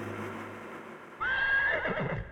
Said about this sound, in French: entend soudain le hennissement d'un cheval